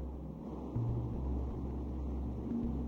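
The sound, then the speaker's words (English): Generator running: a steady low mechanical drone with a constant engine-like rumble, faint and unbroken throughout with no voices. “The generator does appear to be running.”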